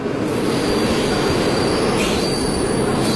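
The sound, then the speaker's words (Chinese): A tourist special train departing on a 16-day trip to Xinjiang. A loud, continuous rumble of wheels on rails runs under a sustained high-pitched squeal from the wheels, steady throughout. “下午2:40，京和号旅游专列准时发车。”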